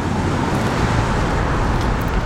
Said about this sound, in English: Everything is so fucking loud. Goddamn cars, fuck off.